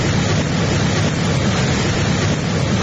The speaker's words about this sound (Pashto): د اروزګان ولایت د خاص اروزګان پر ولسوالۍ د سیلاب د خړو اوبو بې رحمه څپي